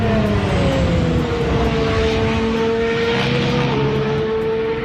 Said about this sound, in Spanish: así suena el nuevo motor Honda de Fernando Alonso